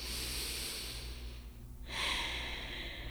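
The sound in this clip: A slow deep breath, drawn as a soft, airy hiss in two long phases separated by a short pause, the second phase fuller and slightly louder.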